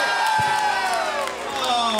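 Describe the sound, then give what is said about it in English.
A live audience at a tabletop role-playing game cheers and whoops loudly, a continuous crowd roar with sustained voiced shouts throughout. “So I'd like the applause to be somewhat conflicted, if that's possible.”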